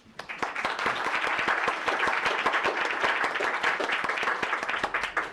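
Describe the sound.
Applause fills a legislative chamber in Juneau as members welcome a guest, a newly elected borough assembly member: dense, steady clapping from many hands that holds loud and even throughout.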